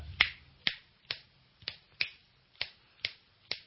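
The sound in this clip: Eight crisp finger snaps, spaced at a fairly steady pace and sounding alone, demonstrating the clave rhythm used in a Mexican orchestral piece.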